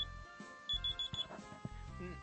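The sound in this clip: A very loud phone alarm rings in a few short bursts of electronic beeping, with steady tonal lines underneath, all fairly faint overall.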